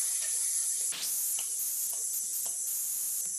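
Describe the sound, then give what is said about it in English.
A long, steady hiss of exhaled breath in a vocal health breathing exercise, a bright, continuous sibilant sound held for the whole stretch with slight wavering, heard alone without talk. “And then on an exhale, you exhale on a hiss.”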